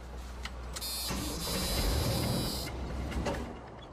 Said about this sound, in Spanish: Y segundos después la camioneta se está moviendo, está avanzando. La camioneta está por moverse, está retrocediendo.